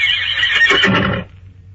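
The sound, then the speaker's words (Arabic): A horse neighs in a single loud, shrill whinny that lasts about a second. It wavers and breaks up before dropping away into a quiet, low background. “الله، ده صوت حصان ولا انا بتهيالي؟ لكن ايه اللي هيجيب الحصان هنا؟”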